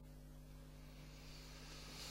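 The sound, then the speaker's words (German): An airplane passes overhead at a booking office in Papua New Guinea: a faint, steady roar under a constant low electrical hum, its airy hiss swelling slightly toward the end. “Oh, wieder ein Flugzeug.”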